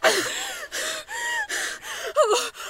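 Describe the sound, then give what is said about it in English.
A woman gasps and struggles to breathe in a rapid series of strained, wheezing breaths, about six in a row, each rasping and fairly loud, with one sharper, choked gasp near the end and no words spoken. “What's wrong with her? Why can't she breathe?”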